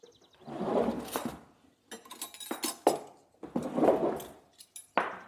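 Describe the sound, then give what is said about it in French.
A large bowl set on a kitchen scale, then flour weighed into it, heard as a few bursts of clinking and rustling. Short quiet gaps separate the bursts. “Je prépare un grand récipient que je pose sur ma balance. J'allume ma balance pour la tarer directement.”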